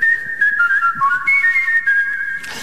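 A person whistles a Christmas tune in a loud, clear melodic line of held high notes with small slides between them. The whistling is heard alone and breaks off near the end with a short burst of noise.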